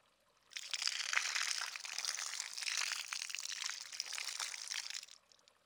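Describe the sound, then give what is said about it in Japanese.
Water pouring to rinse hair: a steady, bright, rushing flow that starts abruptly, holds for about four and a half seconds and then stops. “今度は髪を流しますね。”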